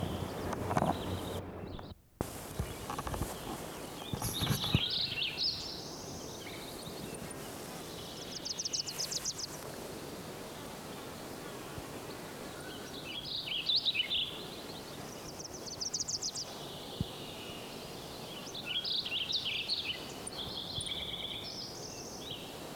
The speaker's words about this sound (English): One, Wilson's Warbler,